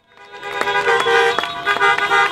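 Car horns honk during a protest caravan of dozens of cars driving around Denver. Several short, loud toots sound in quick, irregular succession, their tones overlapping over a low traffic rumble.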